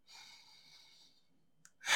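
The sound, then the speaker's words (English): A deep breath drawn in during a guided relaxation exercise: a soft, airy inhalation lasting about a second, fading into a short pause before a small click and a louder rush of breath at the end. “Now, I would like you to take a few deep breaths. So just breathe in”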